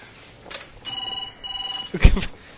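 A telephone rings with one steady electronic ring burst lasting about a second, with brief noises before and after it.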